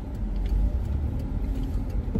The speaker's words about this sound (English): People are wild. Okay. People drive reckless in school parking lots. It's very scary.